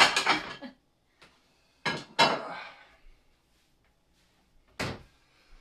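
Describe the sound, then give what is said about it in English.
Pots and pans clatter loudly during cooking, coming as a few sharp metallic bangs and clanks separated by short silences, with no talking. “Everyone loves loud cooking sounds.”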